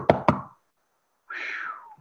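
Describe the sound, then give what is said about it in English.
Two sharp knocks on a door come in quick succession and are followed by silence. “So they keep going, and they make it to the other side, and they knock on the door.”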